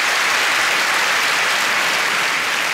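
Audience applause in a big comedy venue: dense, steady clapping at an even level throughout, with no voices standing out.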